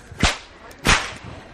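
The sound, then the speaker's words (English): Two sharp, loud cracks from an authentic handmade bullwhip made by a master whipmaker ring out alone, with a brief quiet gap between the snaps. “Friends, that is the sound of a real bullwhip, authentic, handmade bullwhip”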